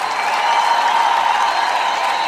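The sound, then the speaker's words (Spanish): Steady crowd applause, dense and even from start to finish, fairly loud with no distinct voices standing out. “¡Aplausos”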